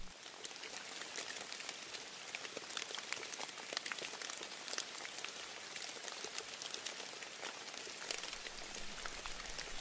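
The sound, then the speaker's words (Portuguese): Rain falling in a forest, a dense, steady patter of countless drops that hiss and tap at an even level for the whole stretch, with no voices. “Esse é o som que uma chuva faz quando cai na floresta.”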